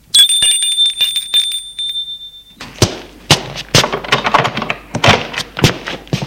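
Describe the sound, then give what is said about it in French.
A doorbell rings with a bright, sustained bell-like tone for a couple of seconds, then gives way to several thumps and knocking clatters. “Un après-midi, elle sonne chez lui.”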